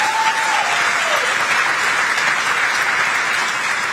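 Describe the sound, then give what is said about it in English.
A crowd applauds a political speech, greeting an applause line with loud, sustained clapping that stays dense and even from start to finish. “That's a lie, but it's an applause line, and he'll wait for them to stop applauding.”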